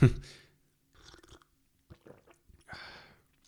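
Faint, irregular chewing and crunching of food by people eating while they chat, heard as a few scattered soft bursts separated by quiet gaps.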